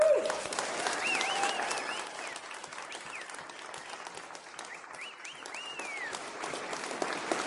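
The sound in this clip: An audience at a camp applauds to welcome a speaker, with steady, sustained clapping and a few rising and falling whistles over it.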